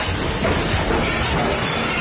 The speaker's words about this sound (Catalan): Aquest és el moment en què cau un edifici a Caracas.